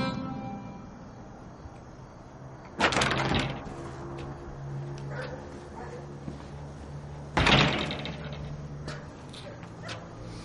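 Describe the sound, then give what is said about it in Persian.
A door being shut, two loud thuds several seconds apart standing out over low background voices and murmur. “در ببند در در ببندید”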